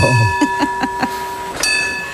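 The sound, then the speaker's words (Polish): A tram bell rung in a radio studio: four quick, evenly spaced bright clangs, then a fifth after a short pause. A steady humming tone runs underneath, and no one speaks. “Proszę się nie przejmować, wszyscy słuchacze w samochodach. To byliśmy my, a nie tramwaj za Państwem.”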